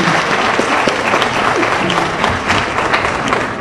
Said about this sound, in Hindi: कथक गुरु विदुषी शोभना नारायण द्वारा निर्देशित प्रस्तुति का उपस्थित कला प्रेमियों ने करतल ध्वनि से स्वागत किया।